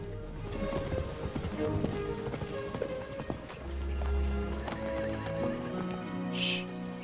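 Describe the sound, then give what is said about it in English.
A herd of horses trotting through long grass makes a dense, continuous patter of hoofbeats and rustling, with a whinny rising over it near the end. “A herd of horses trot through the long grass.”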